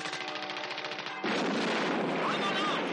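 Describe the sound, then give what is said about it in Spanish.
A bag bomb explodes inside a building in a film scene: a voice is followed by a sudden loud blast that swells into a sustained, roaring rumble. “Al mismo tiempo, la bolsa que dejó Johnson en el edificio estalla.”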